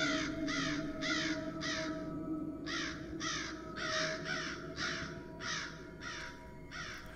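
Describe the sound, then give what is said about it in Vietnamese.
Black crows perched in treetops caw eerily in rapid bursts of harsh, rasping calls, many in all, grouped in short runs with brief gaps, over a steady low rumbling background. “Những con quạ đen không biết từ đâu bay tới, rồi đậu trên những tán cây, kêu lên những âm thanh rùng rợn.”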